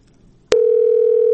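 A telephone line tone cuts in abruptly after a short near-silent pause, then holds as one loud, steady, low-pitched hum without any break through to the end.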